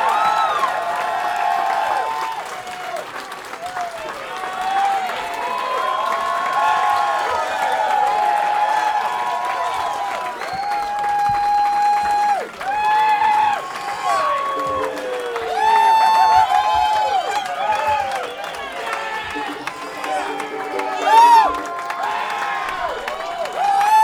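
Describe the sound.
A crowd of patrons at a record shop claps and cheers as a band is welcomed, with whoops and shouts over sustained applause for about twenty-four seconds. Loose voices rise and fall throughout the din.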